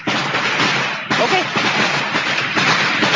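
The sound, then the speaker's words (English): Firecrackers go off in a dense, continuous crackle of loud, rapid pops. Sharper bursts cut in about a third of the way through and again near the end. “Obviously, you got firecrackers on. Well, yeah, but it's not, they're not going to hurt anything, though, is what I'm saying.”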